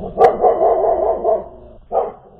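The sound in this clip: A dog barks furiously in loud, mid-pitched bursts. The first starts with a sharp onset and stretches into a sustained, wavering yelp, and a shorter bark follows after a brief pause.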